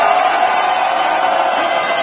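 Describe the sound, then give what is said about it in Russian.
Mission control erupts in applause and cheers as Starship reaches orbit, a loud, unbroken wash of clapping and raised voices holding steady throughout. “Но в момент, когда все-таки это получилось, центр управления просто взорвался аплодисментами. Предлагаю послушать.”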